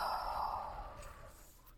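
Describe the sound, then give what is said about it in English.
A deep breath is released in one long, soft exhale after being held, a breathy sigh during guided stretching practice that gradually fades away. “Let's deepen the breath by taking a deep breath in. Hold it at the top. Now release it.”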